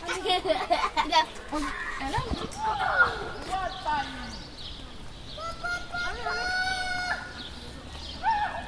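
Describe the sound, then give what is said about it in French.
Children play outdoors in front of a school near a housing block, with high-pitched children's voices and shouts over steady background noise while people talk. “les enfants qui jouent en face de l'école Joliot-Curie ou en bas de la barre Rabot”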